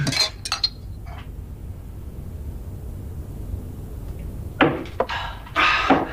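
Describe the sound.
Glasses clink together in a toast: a few bright, ringing clinks at the start, then a busier cluster of clinks near the end, over a low steady background noise.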